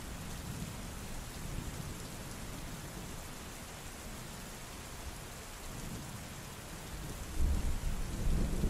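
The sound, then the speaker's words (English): A thunderstorm with rain makes a dense, steady hiss of rainfall throughout, and a deeper rumble of thunder swells in near the end. “The storm strengthened. The wind picking up, which carried the rain”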